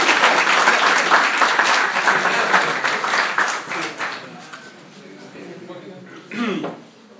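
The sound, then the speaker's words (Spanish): Audience applause for a volunteer coming up at a talk: loud, dense clapping that gradually fades over about five seconds into quieter room noise, with a short vocal sound near the end. “¡Bravo! ¡Un aplauso para él!”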